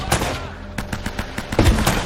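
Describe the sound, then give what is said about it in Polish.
Gunfire in a video game: a rapid run of sharp shots in quick succession, loud, with brief bursts that sound like an automatic weapon. “Kurde, ten tu we mnie strzelił jakiś.”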